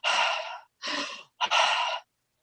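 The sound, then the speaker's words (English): Breathing in a breath work demonstration: three forceful, airy breaths in quick succession with short gaps between them, each a broad, hissing rush of air, moderately loud and with no talk over them. “you breathe in only 80% of the oxygen, like you could bring a little bit more, but you keep it that way. And you breathe out”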